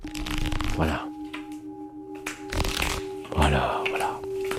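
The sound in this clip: Playing cards are shuffled in a few short riffling bursts over steady, sustained ringing from Tibetan singing bowls, set within a relaxation exercise.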